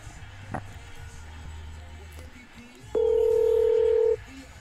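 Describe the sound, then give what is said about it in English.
A telephone call being placed: faint low background noise, then a steady electronic telephone tone that holds for about a second before cutting off. “I'm going to call her again.”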